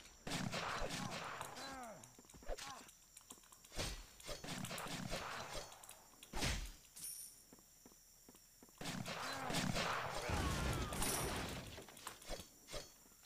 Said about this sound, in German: Wenn die dann kommen, die schießen auch, wie man sieht.